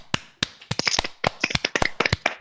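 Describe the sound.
Sharp, irregular hand claps from a few people in a radio studio, many quick claps in a loose cluster, fairly loud with no talk over them.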